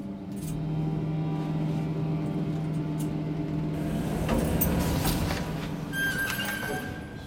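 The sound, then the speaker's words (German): Steady engine hum of a car driving, a low droning tone with even road noise throughout, and a brief clattering burst near the middle. “Wir fahren in die Firma von Assad, Creative Ideas.”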